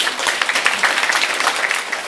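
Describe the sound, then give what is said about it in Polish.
Audience applause welcomes young first-grade performers at a school show. Many hands make a dense, steady patter with no break over the whole short stretch. “Ale mówiąc między nami, powitajmy ich brawami.”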